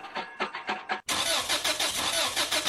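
A car engine cranks with several rhythmic pulses, then catches and runs loudly. It keeps a steady, pulsing roar to the end.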